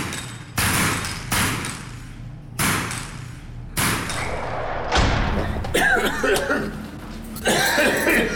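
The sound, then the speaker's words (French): Harsh coughing from a man with a lifetime of exposure to gunpowder dust at a shooting range: a series of loud, abrupt bursts with ringing tails, spaced irregularly, then denser clattering toward the end. “Après toute une vie de contact avec la poussière de poudre de munitions, il tousse pas mal.”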